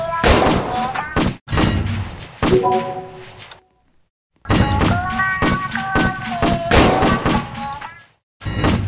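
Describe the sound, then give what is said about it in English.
Gunfire erupts in many loud, rapid bursts of shots with ringing tonal tails. The volleys come in two long clusters separated by a brief silence, and a final burst follows another short gap. “He's trying to shoot everyone.”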